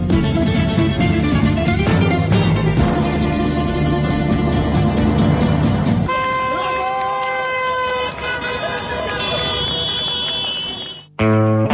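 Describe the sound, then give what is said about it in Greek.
Car horns honk in celebration as vehicles pass through opened toll booths. Many overlapping, sustained toots blare continuously alongside loud voices, then the sound cuts off abruptly near the end. “Κόρνα. Είναι πιο χαρούμενη όταν περνάει την ανοιχτά διόδια από ότι είναι μια κόρνα που συνήθως ακούμε στους δρόμους.”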